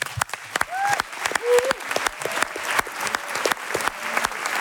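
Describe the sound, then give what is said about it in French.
Ovation for a show's columnist from an audience of about 400 in Marseille: brisk, dense clapping throughout, with a few whistles and cheering voices rising over it. “Dans le doute, faites quand même une ovation à notre chroniqueur, Amzian.”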